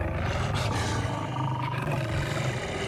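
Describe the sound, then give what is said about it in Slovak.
Lions roar in a deep, rumbling, continuous growl that holds loud and steady for about three seconds, with no voices over it. “Kráľovná sa obzrela za revom a na vršku zbadala levy, ako bežia rovno k nej.”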